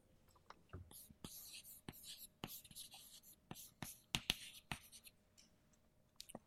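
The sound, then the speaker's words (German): Quiet scratchy writing during a lecture on molecules: a series of short, irregular strokes, scrapes and taps, spaced unevenly and faint overall. “Ich schreibe vielleicht einfach mal weiter.”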